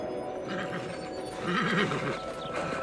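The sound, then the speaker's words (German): A horse whinnies while struggling through hip-deep powder snow up toward the mountains, giving one quavering, wavering neigh that is fairly faint over a dense, continuous background. “Annas Pferd quält sich durch hüfthohen Pulverschnee hinauf zu den Bergen.”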